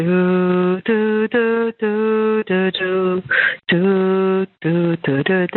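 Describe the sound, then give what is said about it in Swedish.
A male caller sings the brass theme from Dvořák's New World Symphony over a telephone line, a phrase of sustained, tuneful held notes broken by short pauses for breath. “Temat kommer strax efter inledningen här, och det är blåset som har det där spännande temat som vi just hörde sjungas på telefonsvaren här.”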